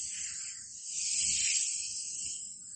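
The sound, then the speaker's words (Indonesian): A voice imitates a pesticide sprayer misting plants: a steady, breathy hiss that lasts nearly three seconds and swells slightly in the middle before easing off. “Maka kalau dalam dunia tanaman ada pestisidanya. Dikasih semprot.”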